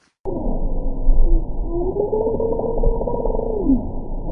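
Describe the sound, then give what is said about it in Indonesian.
Bowhead whale vocalizing underwater in the Arctic: long, low, moaning tonal calls that waver in pitch and run continuously for several seconds, with no other sounds. “Ini adalah suara ikan paus kepala busur di dalam laut.”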